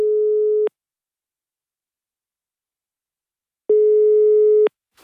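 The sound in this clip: Ringback tone of an outgoing telephone call placed from Coruña: two steady, low, loud tones separated by about three seconds of silence, the second lasting slightly longer.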